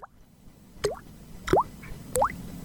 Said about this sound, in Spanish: ¿Ves? Volvió. Volvió la gotera.